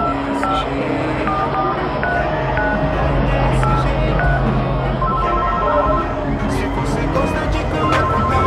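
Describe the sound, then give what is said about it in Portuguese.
Phone keypad tones as a call is dialed: a quick run of short beeps at varying pitches, then another burst of them later, all over a steady noisy background with voices. “Vou ligar pra eles pra ver de qual é.”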